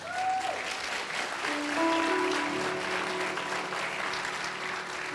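An audience applauds to welcome a woman reader to the stage. The clapping is sustained, dense and steady, holding an even loudness for the whole clip.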